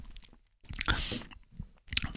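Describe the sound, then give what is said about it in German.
A few sips of a gin and tonic: soft wet slurping mouth sounds with small bright clinks, fairly faint, separated by short quiet gaps and with no talk. “Ich trinke mal einen Schluck.”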